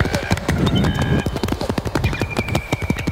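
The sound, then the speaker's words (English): Horse hooves clip-clopping inside a song, a quick and regular run of sharp, hollow knocks over sustained background tones. “But when that drop comes, a small horse has just entered the cave.”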